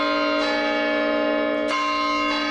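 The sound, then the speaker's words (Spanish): Bell of the Reloj Monumental clock tower in Pachuca, a stone tower over a century old, struck three times, each strike a bright, resonant clang with a long ringing sustain. “Bueno, así suena el campanario de Pachuca.”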